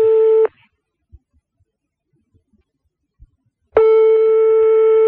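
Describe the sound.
Telephone line ringing after a redial: a loud, steady mid-pitched tone cuts off, then a few seconds of near silence with faint clicks, then a second long tone starts and keeps sounding.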